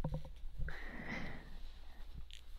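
A loud, sustained nasal snort as someone inhales a line off a mirror, one breathy, hissing intake lasting about a second with a faint whistling edge, preceded and followed by brief low knocks and rustling.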